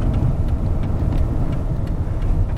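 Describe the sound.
A car being driven gives off a steady, loud low rumble of engine and road noise that stays even throughout, with no voices.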